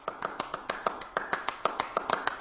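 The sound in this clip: Hand clapping plays a minimalist clapping piece: many sharp, fairly faint claps in a quick, steady interlocking pattern with recurring accents.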